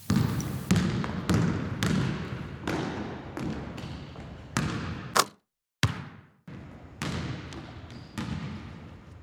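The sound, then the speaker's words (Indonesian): A basketball is bounced repeatedly, giving many firm, resonant thumps at a roughly steady rhythm, each with a short ringing decay. The bouncing breaks off for a brief silence partway through, then resumes. “ini cara pegang bolanya seperti ini. Lalu nanti dilempar ke arah ring.”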